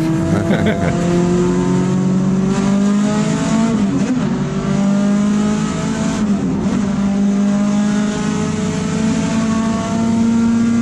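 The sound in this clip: Race cars start a race at the Laguna Seca track during a driver appreciation weekend. The engines make a loud, unbroken roar, and several overlapping engine notes climb in pitch as the cars accelerate together.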